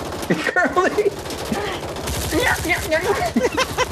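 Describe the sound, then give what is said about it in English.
Sustained gunfire in a video game, apparently GTA, rapid sharp shots crackling repeatedly while people talk over it throughout. “He's actually going to time how long he can do sustained fire.”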